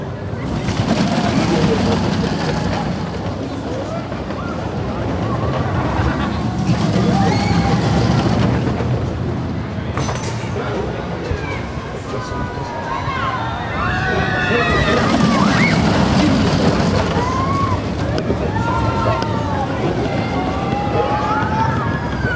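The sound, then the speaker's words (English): A roller coaster ride, with a continuous rumbling roar of the moving train and riders shouting and screaming over it, loudest toward the end. “That was, you could probably tell, a roller coaster.”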